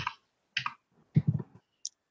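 Clicking of keys as a dice roll is typed into an online chat during a tabletop role-playing game, a few short separate clicks and a quick cluster, fairly faint and without talk.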